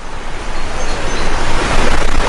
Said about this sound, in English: And we have a little waterfall to keep you awake here this morning. We can pretend we're at En Gedi Waterfall, see?